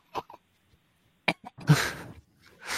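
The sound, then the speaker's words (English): Coughing from ketchup potato chips stuck in the throat: a few short, sharp coughs spread out with gaps between them, then a longer, harsher hacking burst, with one more cough at the end. “I got potato chips in my throat.”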